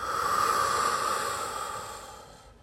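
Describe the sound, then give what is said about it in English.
A long breath from an energetic breathwork exercise, a deep inhale through the nose with a forceful exhale through the mouth, heard as one steady, breathy rush that gradually fades out, with a soft tone running underneath. “Take a deep inhale through the nose. Fill the body up. And exhale with a bit more force through the mouth.”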